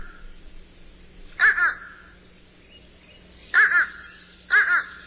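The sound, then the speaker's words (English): A crow calls with very nasal caws: three loud, harsh bursts, each with a double-pulsed shape, spaced unevenly over a faint, steady background hum. “But here's the other crow we're speaking of here that has a very different sound. I'll let you describe how you hear this sound, but here it is.”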